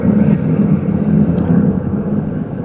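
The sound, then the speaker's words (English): An airplane flying overhead makes a steady, loud, low droning rumble that stays nearly even throughout with no breaks. “sorry about the audio technical difficulties there. I think you had an airplane above you there, sir.”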